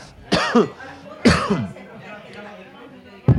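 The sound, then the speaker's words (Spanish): Someone coughs from choking: a few harsh, abrupt bursts, the first two close together, then a short gap before one more starts at the very end. “Ay, que me atraganto al decir Tino Costa.”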